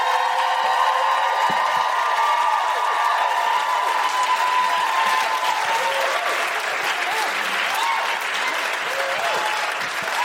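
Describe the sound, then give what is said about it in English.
A Chicago audience applauds and cheers for a guest with sustained, dense clapping and scattered whoops. A voice is briefly heard at the very start. “Put your hands together, make incredible Chicago woohooing noises for Karen Hawkins!”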